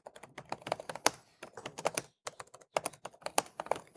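Typing on a computer keyboard: many quick, quiet keystrokes come in bursts separated by short pauses.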